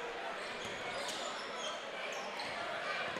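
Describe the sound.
Basketball dribbled during a game: a few soft bounces come through faintly over a steady wash of background noise.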